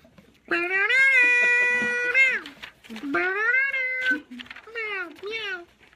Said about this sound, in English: a lot of kitties. Yeah. So many kitties.